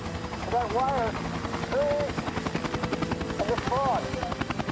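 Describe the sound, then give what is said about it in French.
A loud, steady rotor chop from an FBI helicopter flying low along a highway at about 150 meters, with dense rhythmic thumping that runs unbroken for the whole clip. “qui iraient à la rencontre de l'hélicoptère. Le pilote du FBI continua de longer la route 50 à une altitude précise de 150 mètres”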